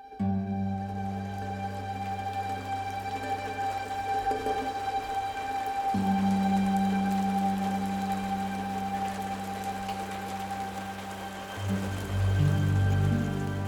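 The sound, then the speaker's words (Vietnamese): Steady rain falling on muddy village ground, a continuous soft patter that holds an even level throughout, with a low sustained hum underneath. “Làng triều hôm nay mưa suốt, mưa âm ỉ làm ướt hết bùn đất”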